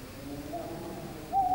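An owl hoots at night near a camp, giving a low, drawn-out tonal call that is fairly faint and sounds alone.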